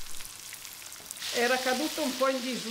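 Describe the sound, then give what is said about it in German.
Sizzling of breaded fish frying in a pot with coarsely chopped onions and plenty of garlic: faint at first, then a steady, louder hiss and crackle for the remainder. “Grob geschnittene Zwiebeln und reichlich Knoblauch kommen in den Kochtopf. Der panierte Fisch wird angebraten.”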